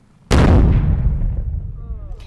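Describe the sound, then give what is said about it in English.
A roadside bomb (IED) set off by Marines at a dirt road intersection outside a compound of mud houses: a single sudden, very loud blast followed by a long, rumbling roar that slowly fades. “The Marines are ready to detonate the IED.”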